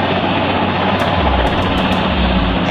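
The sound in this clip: A helicopter in flight gives off a continuous, loud whirring roar of rotor and engine that holds steady throughout with no break.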